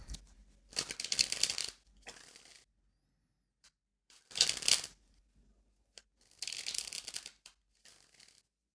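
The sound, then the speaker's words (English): Rapid riffling of a tarot deck being shuffled to draw a card, heard as several crisp papery bursts separated by short pauses, with a few faint taps in between and no voices. “So before we go any further, let's pull a tarot card, see what it has to say about old Wall Street Bets.”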